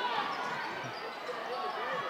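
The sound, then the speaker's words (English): Basketball dribbling on a gym floor during a game, including behind-the-back and between-the-legs dribbles, bouncing steadily under a commentator's continuous talk. “behind the back dribble.”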